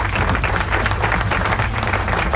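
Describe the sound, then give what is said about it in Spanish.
Loud, dense studio applause: a steady wash of clapping mixed with crowd noise that stays at an even level throughout. “Así que aplauso.”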